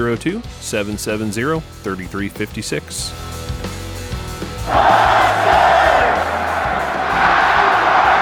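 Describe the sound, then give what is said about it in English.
Loud crowd cheering bursts in partway through, following a short stretch of voices talking; the cheering holds as a broad, sustained roar, swelling again near the end. “There's me cheering.”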